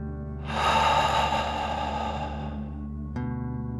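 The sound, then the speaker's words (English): A deep breath in and out through the mouth, heard as one long, smooth breathy rush of about three seconds that swells early and then holds steady, over a constant tonal background. “Deep breath in and out.”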